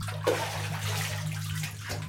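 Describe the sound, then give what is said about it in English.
Water filling a bathtub as a child splashes playfully, a steady, fairly quiet rush of running water with a brief splash near the start over a low constant hum. “I shout through the bathroom, from which I can still hear the sounds of playful splashing. "Tub's almost full, Dad," he replies after a distracted pause.”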